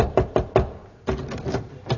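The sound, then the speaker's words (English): Knuckles rap on a door: three quick, evenly spaced knocks, then a looser run of softer taps and a final knock. “Thou knocked”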